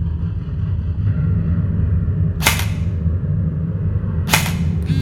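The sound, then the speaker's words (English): An assault rifle (an M4) fires during a shooting test: two sharp, loud cracks about two seconds apart, heard over a steady low rumble. “He put on the shock belt and picked up a Mach M4 assault rifle. I'm going to call that a foe, so I'm going to shoot.”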